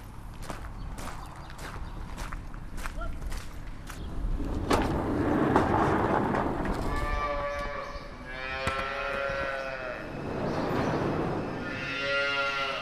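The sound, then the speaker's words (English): Calves and cattle lowing in a calf shed on a dairy farm: early clattering and thumping, then a few loud, drawn-out moos, each rising and holding with a rich, resonant tone. “Well, we're back in here in the calf shed.”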